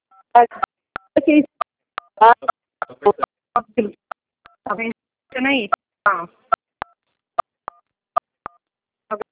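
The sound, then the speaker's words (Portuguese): Telephone keypad tones ring out as number buttons are pressed, many short electronic beeps at an irregular pace, interleaved with people talking. “está apertando os números.”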